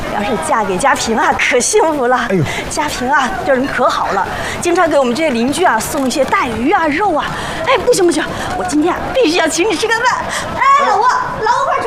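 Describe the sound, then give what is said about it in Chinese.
Children play in a Shanghai alley lane, a dense, lively mix of excited kids' voices, shouts and chatter that goes on throughout. “我们这弄堂里的小孩啊，永远都精力这么充沛，回头你就知道了。想睡个懒觉都睡不好。”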